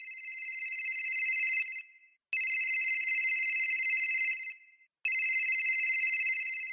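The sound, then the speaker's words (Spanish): An office telephone rings with three long, bright electronic trilling bursts separated by short silent pauses. The last ring is cut off at the end. “recibe una llamada en la oficina.”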